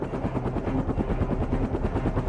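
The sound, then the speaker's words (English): Rotor chop from an MD-500 in the Galápagos, a small single-turbine helicopter with five blades: a rapid, steady thumping pulse over a broad, rough engine roar that runs without a break. “So the helicopters we used, they're called MD-500s. Small helicopter, they're for four passengers and one pilot. Single turbine, five blades.”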